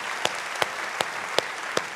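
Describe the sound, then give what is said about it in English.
Church audience applauding, a steady wash of clapping with five sharper claps standing out at an even, regular beat. “Come on, church, let's put our hands together.”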